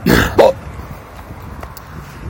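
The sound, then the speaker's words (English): Hiccups: a single sharp, gulping vocal catch with a brief squeaky tonal edge, coming right after a breathy burst at the start and followed by a quiet, steady background. “I really got the hiccups.”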